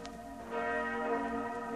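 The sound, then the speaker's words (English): An alarm bell ringing at Dunsinane castle during a siege, a steady, layered metallic clang that sustains and swells slightly, fairly faint and alone without voices. “Ring the alarum bell.”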